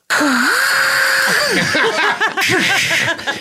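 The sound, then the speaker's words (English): A man vocally imitates grinding gears and a rising elevator with warbling, sliding tones and wheezy, laugh-like bursts. The mechanical sounds are mimicked entirely by mouth. “And grinding of gears and ching, ching, ching, like an elevator or something.”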